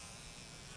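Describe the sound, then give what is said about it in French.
Faint, steady buzzing of a fly, continuous and unbroken throughout, with no voices or other sounds. “C'est le bourdonnement d'une mouche.”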